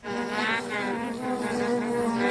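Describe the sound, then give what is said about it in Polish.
Bees buzzing as they wake from winter dormancy, calm as spring approaches: a steady, dense drone rich in harmonics, fairly loud and continuous throughout, with no voices. “Pszczoły budzą się z zimowego snu. Budzą się w olimpijskiej formie.”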